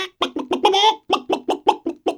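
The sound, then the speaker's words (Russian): A hen clucks in a quick rhythmic series of short, clipped calls, with one longer drawn-out cluck near the start, all heard clearly and alone. “а курочка кудахчет”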